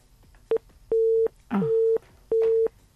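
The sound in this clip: Busy tone after a phone call is cut off: a steady mid-pitched beep repeats in regular on-off pulses, with a brief clipped beep near the start and soft rustling between beeps.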